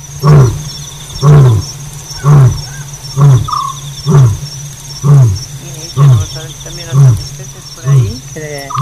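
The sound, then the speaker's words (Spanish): A lion roars at night in a long series of deep, rhythmic grunting calls, roughly one per second, while crickets or other insects keep up a steady high chirring underneath. “El león tiene altavoz propio, decía Ramón Gómez de la Serna”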